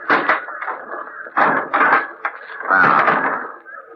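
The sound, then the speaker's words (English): A large trunk cover is opened with a few drawn-out wooden creaks and knocks, loud and separated by short pauses. “Now take a look at this. Wait till I open the trunk cover.”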